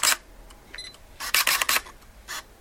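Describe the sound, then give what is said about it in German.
A camera shutter clicks while photos are taken, giving several crisp clicks, some in quick succession. A short electronic beep sounds between the clicks. “Sehr gerne habe ich dabei auch fotografiert. Das Geräusch haben Sie gewiss auch erkannt.”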